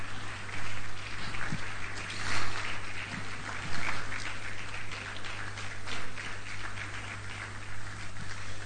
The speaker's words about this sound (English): Please, let's put our hands together. Let's put our hands together.